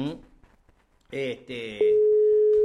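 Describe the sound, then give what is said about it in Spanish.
A steady, unbroken telephone dial tone comes in after a brief stretch of talk while a call is placed by phone because a call over the computer would not connect; the single mid-pitched hum holds level and fairly loud until the end. “una lástima que a veces no entra la llamada, vamos a tener que llamarlo de acá”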